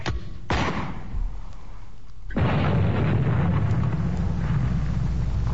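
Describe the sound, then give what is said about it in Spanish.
Artillery guns fire from the Watchung Mountains: two sharp, heavy booms in quick succession, then a sudden, sustained loud roar of rumbling noise that continues to the end. “tenemos contacto con las fuerzas de artillería desplegadas en las montañas Watchung. Alcance 32 metros. 32 metros, señor. Proyección 39 grados. 39 grados. Fuego.”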